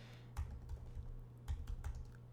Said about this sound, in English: And you will never know what I just typed.